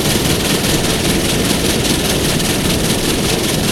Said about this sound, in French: Il ouvre les yeux petit à petit et voit avec surprise qu'il est dans un compartiment d'un train qui roule.